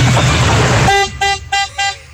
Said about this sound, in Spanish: Puro respétele, pito de carro viejo. Respétele el vehículo al señor.